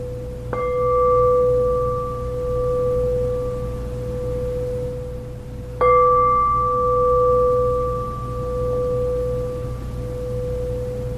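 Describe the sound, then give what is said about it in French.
A meditation bowl is struck twice to close a meditation, each strike ringing into a long, pure, steady tone that sustains over a low, soft background hum. “vous invite à vous laisser entendre les sons du bol qui va signifier la fin de la méditation. On n'a rien à faire, juste laisser les sons”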